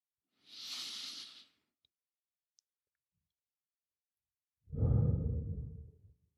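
A person breathes slowly into a microphone: a soft, airy inhale, a long silent pause, then a deeper, fuller exhale that trails away.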